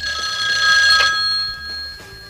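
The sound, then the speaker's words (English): A telephone bell rings in a single brisk burst of about a second, then fades to quiet. “Let's commemorate the telephone with this here.”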